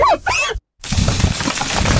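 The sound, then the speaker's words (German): A stone chip cracks a car windscreen. After a brief silence comes a sustained, gritty, crackling burst of noise, fairly loud. “Steinschlag. Scheibe gerissen.”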